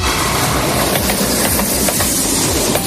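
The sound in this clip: Train sound effect: a loud, steady rolling rumble and hiss of a moving train with faint, regular clacks throughout and no voices.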